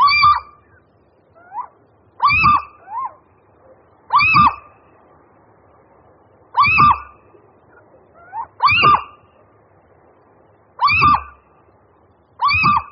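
Little owls calling in spring: a male gives repeated loud, sharp, excited calls at a fairly steady spacing, and softer answering calls from a female fall between them.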